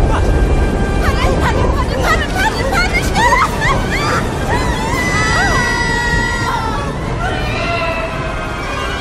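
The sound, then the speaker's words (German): A rushing waterfall in a radio drama gives a deep, continuous roar of water, with frantic squealing and shrieking voices over it throughout. “Und dann erschien vor ihnen ein Wasserfall. Ein ziemlich tiefer Wasserfall.”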